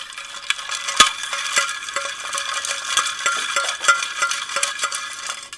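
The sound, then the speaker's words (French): Ice clinking in a glass as a cocktail is stirred: a continuous, fairly faint run of small knocks and rattles, with one sharper clink early on. “Alors on mélange.”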